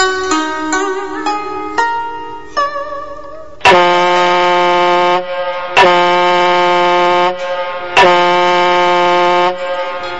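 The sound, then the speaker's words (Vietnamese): A ship's horn sounds in three long, loud, sustained blasts with sharp starts and steady chord-like tones, preceded by a run of shorter ringing tones. “Hồi còi tàu vang lên”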